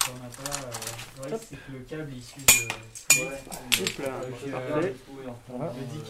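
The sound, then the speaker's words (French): Sharp metallic clinks from a bicycle chain being broken apart in a community bike repair workshop. Two bright knocks ring out amid softer tool clatter while people talk throughout. “on se met n'importe où et on casse la chaîne en deux.”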